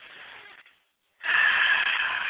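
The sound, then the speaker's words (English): A deep breath heard as two airy, breathy rushes with a short silent gap between them. The second rush is louder and longer than the first. “But when you allow yourself to become still, take that holy breath.”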